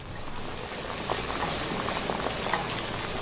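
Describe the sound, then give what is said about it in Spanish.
Food fries in hot oil, browning and puffing up, with a dense, steady sizzle that holds at an even level and is sprinkled with small scattered pops and crackles. “vamos a esperar a que se frían bien. Van empezando a agarrar un colorcito así medio como cafecito, ya bien frito, y pues ya nomás les vas a estar dando vuelta y vuelta. Se van inflando un poquito.”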